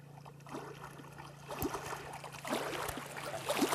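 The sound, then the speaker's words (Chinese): Waves and water on Baisha Lake: faint, irregular lapping splashes and swashes over a steady low hum, growing slightly louder toward the end. “我猜白沙湖的海浪声、水声”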